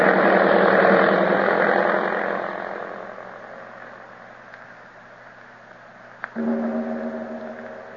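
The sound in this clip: An airplane engine droning after landing, loud and steady at first, then fading to a lower hum. A single sharp click follows, and a steady, lower-pitched engine tone takes over to the end.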